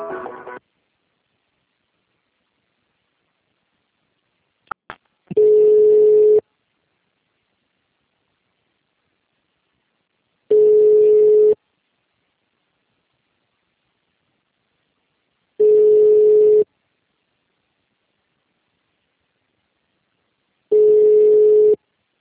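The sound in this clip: Telephone ringback tone while a call to a clinic is being connected: four steady, mid-pitched tones of about one second each, spaced roughly five seconds apart with silence between.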